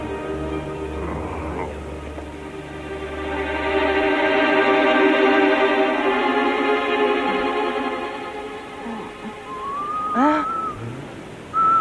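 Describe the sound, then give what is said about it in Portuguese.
Whistling attributed to a whistling fish in a circus act: a long, rich, sustained tone swells and fades, followed near the end by short, bright whistled glides that bend up and down. “Um peixe que assobia.”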